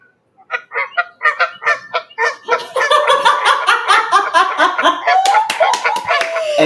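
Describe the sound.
Canada goose honking: loud nasal honks, spaced and separate at first, then thickening into a dense run of many overlapping calls.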